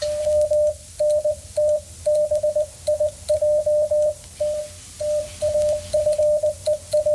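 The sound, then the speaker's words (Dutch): Morse code signals sent by radio sound as a steady, single-pitched beep keyed on and off in a quick, uneven dot-and-dash rhythm. The beeps are loud over a low background hum, with no talk. “als je aan het zenden bent, je gebruikt eigenlijk je hoofd als één grote computer om de morsesignalen uit te zenden”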